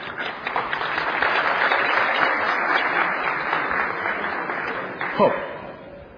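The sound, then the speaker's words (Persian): Applause for the bride and groom at a wedding: dense, steady clapping that swells quickly and carries on evenly for about six seconds, easing slightly toward the end. “لطفاً حمایت بکنید و از آقا دوماد و عروس خانم حمایت بکنید، براشون دست بزنید.”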